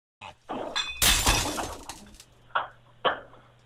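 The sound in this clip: Glass shattering in a video game, opening with a few small knocks before a loud crash of splintering shards that trails off, followed by two sharper, shorter breaking hits.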